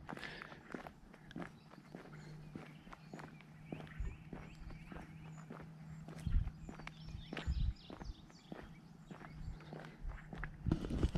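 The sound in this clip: Footsteps walk along a path in a steady, even rhythm, many soft scuffing steps with a few heavier thuds, faint throughout.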